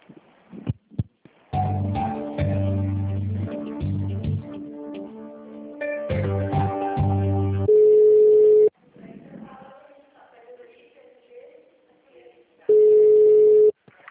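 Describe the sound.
Telephone line tones while a call is transferred to payroll: tinny hold music with repeating chords, then a long steady beep, a quieter stretch, and a second matching beep.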